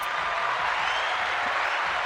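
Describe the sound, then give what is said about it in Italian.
Audience applause welcomes a visiting professor as a guest. It is a soft, continuous hiss of many hands, even in level, with no distinct individual claps. “Aspetto la fine dell'applauso.”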